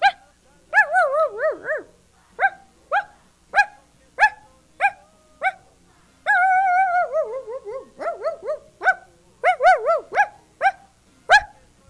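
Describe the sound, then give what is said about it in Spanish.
A little dog barks in many short, high-pitched yips. A longer, whining run of barks comes in the middle, and the barking stands alone with no talk. “estamos con lo del perrito Pipo”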